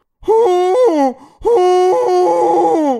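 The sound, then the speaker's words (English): A human voice imitates a llama being chased by a wolf with two long, strained, groaning cries whose pitch wavers and drops at the end, loud and alone. “the noise that a llama would make if being chased by a wolf.”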